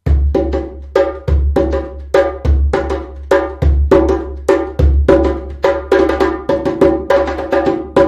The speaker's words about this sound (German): und einem Djembe-Ensemble von, sag ich mal, ungefähr 3 Djemben. Und das klingt so.